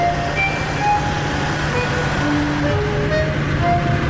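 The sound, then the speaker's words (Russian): A white car driving along a road, heard as a steady low engine hum with continuous road noise and no clear change in level. “По дороге едет белый автомобиль.”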